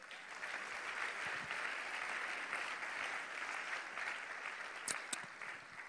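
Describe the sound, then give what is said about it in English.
A church audience claps its hands in steady, dense applause that keeps going for the whole stretch, with a couple of brighter, sharper claps near the end. “Let's give God Almighty a big hand clap.”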